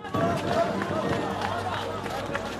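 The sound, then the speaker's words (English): People running along a muddy street after a bomb blast. Loud, continuous rushing movement and footfalls mix with crowd voices and babble throughout. “After a bomb goes off, people run along a muddy street lined on both sides by bushes and tall palm trees.”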